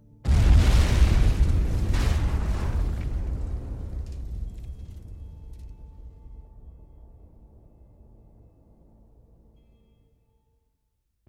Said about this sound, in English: Did you see that explosion? Kaboom! Sky high!